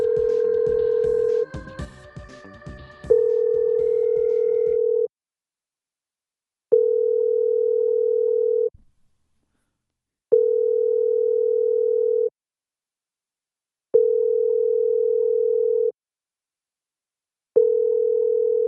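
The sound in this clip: Telephone call to a sign shop: a brief jumble of dialing tones, then a steady ringing tone sounding in five long, evenly spaced pulses separated by short silences.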